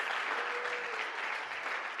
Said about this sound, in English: Don't clap if you don't mean it.